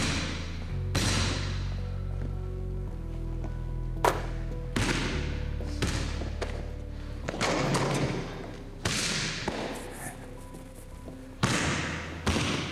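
A basketball is shot and bounced by a lone player in a school gym. Many sharp thumps land at an irregular pace over a steady low hum.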